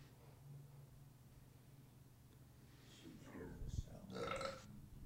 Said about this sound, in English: I even held the mic away. And burped right at me.